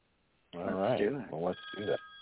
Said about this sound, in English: Oh, look at somebody's phone. Oh, my goodness. We have a caller. We do. Answer the phone.